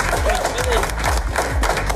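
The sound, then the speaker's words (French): A live audience gathered for a morning show claps and cheers for itself, a busy mix of clapping and crowd noise with a voice heard above it. “Bienvenue à vous les amis, vous pouvez encore vous applaudir.”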